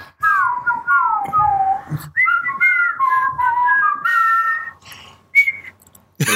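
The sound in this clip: A person whistles a tune from an animated film as a clear, wavering melody in several phrases with short pauses. One bright, higher note comes near the end, and no one talks.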